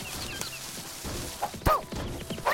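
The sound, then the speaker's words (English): A tree is struck in a video game, giving a few sharp whacking thuds over steady in-game background noise. “while I'm hitting this tree. 5 shots to kill a tree right now.”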